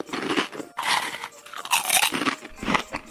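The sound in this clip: Crunchy chewing of a young Parasaurolophus eating grass, leaves and thin twigs. Several loud bursts of munching come in irregular succession, separated by short pauses.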